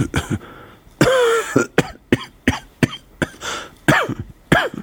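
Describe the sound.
A man coughs repeatedly in many harsh, rasping bursts with uneven gaps. One long, strained, voiced cough stands out near the start, and no other sounds accompany the coughing.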